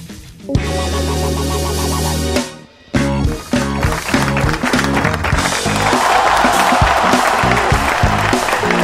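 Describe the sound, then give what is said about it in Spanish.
Audience applause arriving late on a rock radio show, mixed with loud rock music after a brief break in the music, and growing more prominent through the second half. “Faltaban los aplausos. Tarde la gente.”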